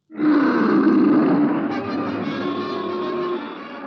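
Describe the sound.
A lion roars in an animated cartoon: one loud, rough, sustained roar held for nearly four seconds, easing a little partway through.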